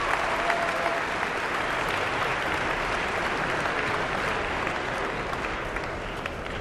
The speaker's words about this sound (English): The audience certainly appreciative and calling her back to center stage here at Carnegie Hall.